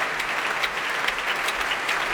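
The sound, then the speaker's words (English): A concert audience and two vocal soloists applauding the orchestra's players, a dense, even roar of clapping that stays steady throughout with no voices standing out. “The two soloists returning to the stage now and applauding the players in their turn.”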